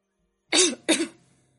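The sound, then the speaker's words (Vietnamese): Two quick, fairly quiet coughs in succession, the second slightly longer and trailing off, with nothing else heard around them. “Tề Diệt bỗng chốc ho khùng khục nhìn Tịch Ly.”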